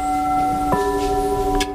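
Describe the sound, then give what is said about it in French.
Struck porcelain ringing with a crystalline tone: pure, sustained pitches hum steadily until a fresh tap partway through shifts the ringing to new notes, followed by a light click near the end. “Ce son-là, il n'y a que la porcelaine qui le donne.”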